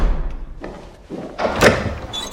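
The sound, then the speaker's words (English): A bedroom door being opened makes a few soft knocks and low thuds, with one louder bump near the end. The sounds are short and uneven, with no talking. “The maid opens the door of the bedroom”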